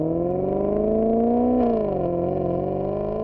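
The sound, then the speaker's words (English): A Maserati car engine from Bologna runs with a loud, smooth tonal hum. Its pitch climbs gently, drops sharply partway through, then eases lower. “Can you hear it? That is the sound of a unique car engine from Bologna since 1914.”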